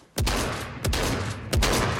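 Gunfire in the video game Fortnite, three sharp blasts spaced evenly apart, each one trailing a deep booming tail.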